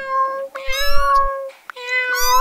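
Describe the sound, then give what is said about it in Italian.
Cats meowing at a door, wanting to be let outside: a few long, high, drawn-out meows that are loud and clear, with no voices. “vado ad aprire la porta ai gatti che vogliono uscire”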